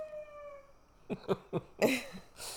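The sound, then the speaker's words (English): Beagle howling outside: a faint, drawn-out, tonal howl that fades out, then a few short, sharp yelping bursts, all quiet and thin. “If y'all can hear that, we had to let our dogs outside while I was talking. And our beagle is so loud when he goes outside.”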